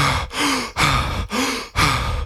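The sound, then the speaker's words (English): A voice imitates someone heavily out of breath after climbing stairs, with a rapid, rhythmic series of loud, raspy gasps, some of them voiced with a low groaning tone. “He did, he got... immediately, exceptionally out of breath.”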